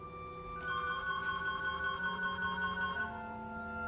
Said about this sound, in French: C'est le téléphone de Dag? Bouge pas, j'y vais.